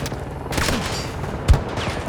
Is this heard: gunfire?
yes